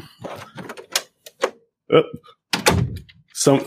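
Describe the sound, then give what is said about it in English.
A door closing, heard as a few short, muffled knocks and thunks. “I think a door should close or something.”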